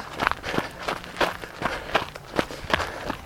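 Footsteps of someone walking onto Harris Trail, a steady series of crisp, crunchy thuds at an even, brisk pace, moderately loud over a soft background hiss.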